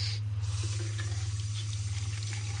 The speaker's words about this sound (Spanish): Enciende la luz del baño y coloca un bote junto al grifo que abre para lavarse la cara.